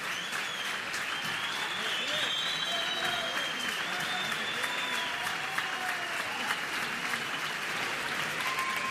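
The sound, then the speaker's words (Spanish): A theatre audience applauds with dense, steady clapping at a moderate level, with some voices and whistles mixed into the ambience. “este es el sonido ambiente del teatro, ¿eh?”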